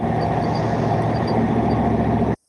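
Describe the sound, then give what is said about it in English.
A Dodge truck's V8 engine runs in a steady, dense, low rumble with a constant tone, holding at an even level before cutting off abruptly near the end. “It's V8. It sounds familiar. Yeah. Oh, nice. I think that's nice. Are you driving a Dodge? Are you driving a Dodge truck”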